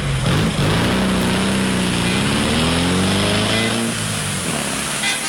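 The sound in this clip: A tuk-tuk auto rickshaw setting off: a loud, buzzing small engine drones continuously, its pitch climbing as it revs up, with no talking.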